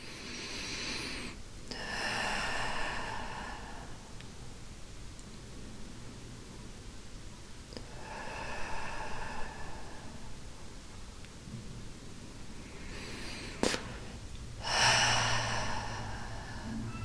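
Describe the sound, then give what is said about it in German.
Slow, deep breathing in and out during a guided meditation: a few soft, airy breath sounds come at long, even intervals, faint against a quiet hiss. “Und dann atme noch mal ein paar Mal ein und aus.”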